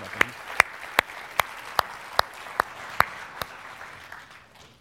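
Audience applause welcoming a guitar player to the platform, with nine sharp, evenly spaced claps about every 0.4 seconds over a softer wash of clapping that fades at the end.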